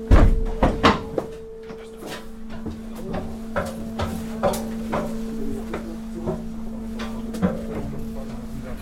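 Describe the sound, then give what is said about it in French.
Doors and hatches shut aboard a sea rescue lifeboat: a few heavy thuds and knocks come in quick succession at first, then lighter scattered knocks over a steady mechanical hum. “Je vais tout fermer ici, parce que ça va faire du bruit.”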